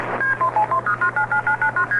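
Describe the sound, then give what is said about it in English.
Telephone dialing tones from a 1969 advertisement for direct long-distance dialing: a rapid, evenly spaced string of short two-pitch beeps over a faint low steady hum. “about the same time, you can dial a call to any place in the country.”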